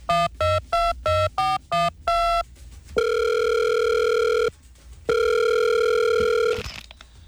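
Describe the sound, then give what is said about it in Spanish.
A telephone call is placed: a quick run of short dialing beeps, then two long, steady ringing tones separated by a brief pause, with no voices. “Llamando a Infantino.”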